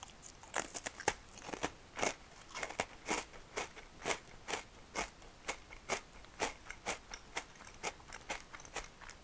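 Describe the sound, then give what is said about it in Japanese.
Crisp crunching from someone eating a Fujiya Home Pie pastry: many sharp, dry bites and chews in a fairly steady rhythm, faint and with no talking. “ホームパイ食べてるこのパイ美味しいよね藤屋のこれ大好きなんですよ”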